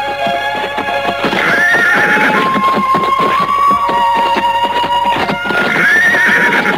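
Horses stand before a palace gate as soldiers mount them. A couple of high, shrill whinnies rise over a busy, uneven clatter of hooves clopping throughout, loud and without voices.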